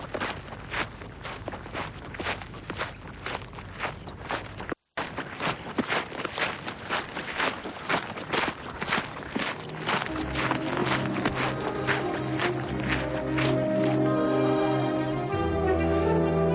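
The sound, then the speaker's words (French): A man's footsteps run across open countryside, beating out a steady, regular rhythm of many crisp impacts with a brief gap partway through. Sustained musical tones join in the second half. “Lui court la campagne. Il a peur.”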